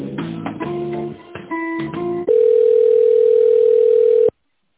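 A telephone line tone plays while a call is transferred. A brief run of melodic, hold-music-like notes comes first, then one steady mid-pitched tone holds for about two seconds and cuts off.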